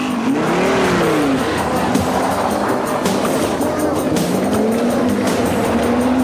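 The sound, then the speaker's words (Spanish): A motorcycle and a Volvo car drive away: wavering engine tones rise and fall over a loud, steady roar of road noise. “La moto y el Volvo se van.”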